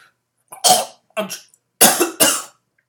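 Coughing after inhaling something: four harsh, forceful coughs in two quick pairs, each a short raspy burst with throat-clearing roughness, heard alone with silence between them.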